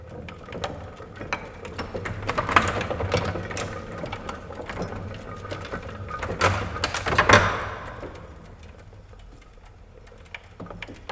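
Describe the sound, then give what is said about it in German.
Mechanical clattering of a 1903 Phoenix high-speed printing press running, an A3-format machine that can also be foot-driven. Many rapid knocks and clacks form a busy, rhythmic racket that swells to its loudest near the end, then drops to a quieter mechanical hum. “Wie zum Beispiel diese Phoenix aus dem Jahr 1903. Eine Schnellpresse, die bis zur Größe A3 drucken und bei Bedarf auch über einen Fußantrieb betrieben werden kann.”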